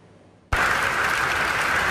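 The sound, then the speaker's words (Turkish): Scientists applauding the results of a pancreatic cancer drug: near silence for a moment, then loud applause bursts in abruptly and holds as a full, steady roar of clapping to the end. “Bu ay tıp dünyasında çığır açacak pankreas kanseri ilacının sonuçlarını bilim insanlarının dakikalarca alkışladığı bu görüntülerle öğrendik.”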